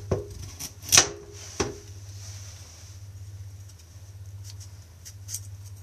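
A knife cuts a carrot in half with a few sharp, crisp clacks close together near the start, followed by a low steady hum and faint scattered ticks.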